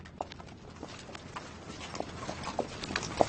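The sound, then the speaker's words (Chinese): Faint hoofbeats from a horse carrying a rider: a few scattered, irregular thuds over a low, steady background. “你看，那个骑马的人”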